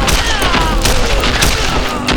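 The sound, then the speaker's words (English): Sustained gunfire from a Winchester rifle in a Western shootout, dense and continuous, with overlapping booming reports and no clear gaps between shots. “With the Winchester, it was like shooting clay ducks in a shooting gallery.”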